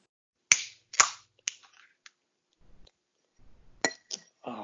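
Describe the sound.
Glass clinking while someone has a beer: a few sharp, bright clinks, three close together, then a quiet gap with a soft rustle, then another brief cluster of taps.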